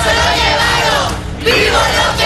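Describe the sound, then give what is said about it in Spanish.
A crowd of people carrying placards outside a clinic shout slogans in support of a mayor: loud, dense, continuous yelling and chanting voices, with a brief dip before the shouting surges again. “Llegaron personas con carteles gritando consignas a favor de Álvarez.”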